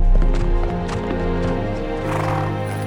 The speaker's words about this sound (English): He raced home on horseback, galloping through dark woods and quiet pastures, until he finally arrived home to grieve with his family.